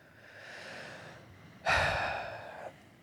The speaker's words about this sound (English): I know some of you really felt that deep breath.